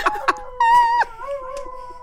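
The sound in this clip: A dog howls at a passing fire truck siren: two short yips, then a sustained high howl note that breaks off, followed by a lower, wavering drawn-out howl.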